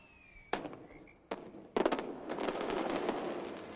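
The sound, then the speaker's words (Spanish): Fireworks explode over a town: a sharp single bang, then another, then a thick run of crackling pops and bursts that keeps going loudly to the end. “El cielo se adorna de fuegos artificiales provenientes del pueblo.”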